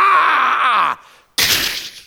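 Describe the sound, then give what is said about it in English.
A door being smashed open: a loud, groaning creak runs for most of a second, then after a brief pause a harsh crashing burst hits and fades away. “Or we could smash the door open.”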